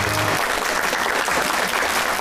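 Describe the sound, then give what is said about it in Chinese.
Audience applause at a stage event honoring a veteran Qinqiang opera performer's fifty-year career: dense, steady clapping from a crowd, loud and continuous throughout. “所以我觉得呀，我们应该把致敬的掌声送给丁老师”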